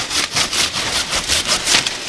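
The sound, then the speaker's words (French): A hand saw cuts through hanging cacao tree branches. Many quick, even back-and-forth strokes give a raspy, hissing rhythm at steady volume, with no voices. “Les branches pendantes, c'est les branches qui viennent s'entremêler ici, qui viennent toucher l'autre côté. Donc ça, c'est pas bon. Il faudrait qu'on puisse arranger ça. Donnez-moi la scie.”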